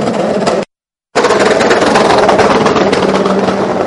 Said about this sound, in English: the team very much going to work doing the tyres. You can hear the air guns in the background.